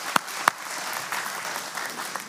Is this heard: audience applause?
yes